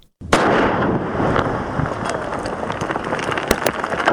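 Landmine explosion set off by a police officer in the Sar Baghal area of Maiwand district, Kandahar: a sudden loud blast swells into a sustained heavy roar, with a couple of sharp cracks near the end.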